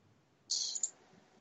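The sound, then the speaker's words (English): Typing on a computer keyboard in a web browser: a short, faint burst of crisp clicking lasting under half a second, alone against quiet background. “Now go to, I'm going to do it on my browser. I'm going to type the two words.”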